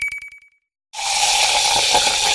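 Minakva sparkling mineral water is poured into glasses: a bright glass clink rings and fades, a brief silence follows, then a loud, steady fizzing hiss of carbonated water.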